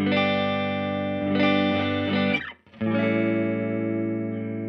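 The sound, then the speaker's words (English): Full, warm chords from a solid-body electric guitar on its neck humbucker pickup. One chord swells and sustains, then cuts out briefly before a new chord rings on loudly to the end; no voices. “Nice and full kind of sounding humbuckers on this thing. That's the neck.”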